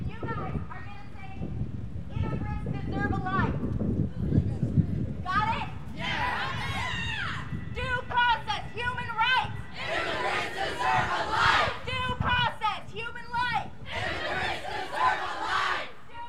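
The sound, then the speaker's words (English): High school students march to City Hall in Portland on a walkout protesting ICE, their crowd shouting and chanting in loud, rhythmic bursts of many voices over a constant rumble of crowd noise. “In Portland, high school students staged a walkout to protest ICE on December 16th. Kebu caught up with students from Lincoln High School as they marched to City Hall.”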